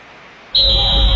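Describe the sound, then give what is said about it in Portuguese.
A referee's whistle starts a football match at Arena do Grêmio with one long, shrill, steady blast that begins after a short pause and rings over a low background rumble. “Apita o árbitro!”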